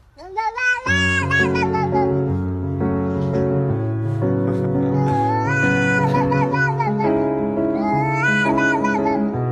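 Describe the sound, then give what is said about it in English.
A cat meows in long, wavering, melodic phrases over a sustained piano accompaniment played by its owner. A few drawn-out meows rise and fall in pitch above steady chords. No one talks. “So this is the cat with just the piano.”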